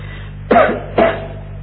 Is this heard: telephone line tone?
no